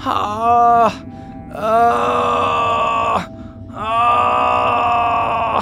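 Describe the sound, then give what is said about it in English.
Moaning drifts from across a walking path that people take to reach the stumps: three long, drawn-out groaning wails with strong harmonics, each swelling and then fading, the last held longest. “You also hear from across like the walking path that people would take to get to the different stumps, you hear moaning.”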